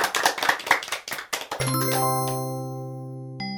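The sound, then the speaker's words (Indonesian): Hands clap in a quick rhythmic burst for children, then a bright chime rings out and sustains, slowly fading. “Nah, mari kita sama-sama bertepuk tangan untuk kita semua.”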